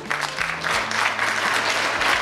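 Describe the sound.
An audience applauds during a comedic mock courtroom scene, with dense, steady clapping that stays loud from start to finish.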